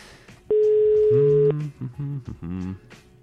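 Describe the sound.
Telephone tone heard while placing a call: one steady, one-second tone sounds loudly, then gives way to a few shorter, broken tonal bursts.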